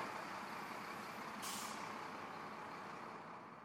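A truck loaded with chains and bungee cords being driven out of a gate: a steady, low engine rumble with a brief hiss of air brakes midway, then a gradual fade toward the end.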